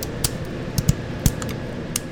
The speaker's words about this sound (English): These ones we would trim with a scissor.